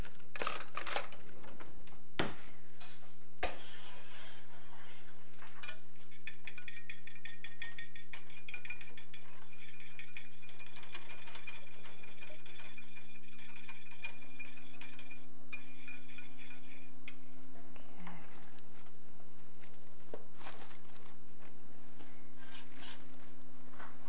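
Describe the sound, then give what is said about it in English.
An egg being scrambled in a pan, with many light, rapid clinks, taps and scrapes of utensil on metal over a steady low hum, continuing throughout without talk. “Scramble you an egg here,”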